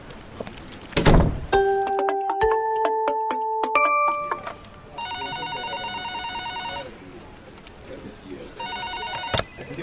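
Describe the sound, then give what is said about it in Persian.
A telephone rings in two loud bursts of trilling electronic ringing, the second one cut short. Before the rings come a dull thump and a short series of stepped beeping tones. “ببخشید، من باید این تلفن رو حتما جواب بدم، ضروریه.”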